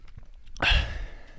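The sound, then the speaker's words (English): Drinking water right into a microphone: a few faint soft sounds, then one loud breathy rush that fades over about half a second. “sorry if I just drank my water right into the mic.”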